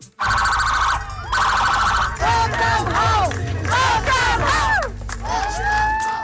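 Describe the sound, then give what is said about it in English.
A big crowd cheering at an emotional homecoming celebration in Stratford, PEI, mixed with loud wailing sirens and blaring horn tones that sweep up and down, all continuous and loud. “a surprise celebration in Stratford, PEI, where a big crowd turned out for an emotional homecoming.”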